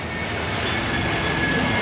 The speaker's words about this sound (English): sorry, the plane flying over.